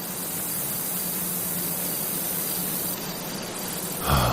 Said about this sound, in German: Oder das hier ist ein Kornfeld.